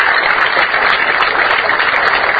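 Audience applause at an inaugural ceremony where community radio stations receive subsidy certificates: a dense, loud, unbroken roar of many hands clapping at once.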